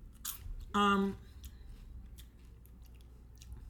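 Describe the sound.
Pirate's Booty cheddar puffs are bitten and chewed, a short crisp crunch followed by soft, faint chewing, while people talk.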